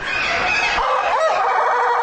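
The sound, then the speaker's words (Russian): A rooster of an odd-looking breed, apparently from Latin America, crows in one drawn-out, strained call that holds steady and loud, with a harsh, nasal upper edge and no voices present. “Для того, чтобы записать голос одного по европейским меркам странно выглядевшего петуха, кажется, из Латинской Америки, пришлось стоять возле клетки минут 10.”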